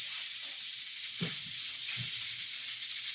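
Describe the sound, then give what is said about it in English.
Burgers sizzle in a frying pan with a steady, bright hiss throughout, broken by two soft, low thuds partway through. “Right, the pan's on there already. And we'll just put these burgers on there.”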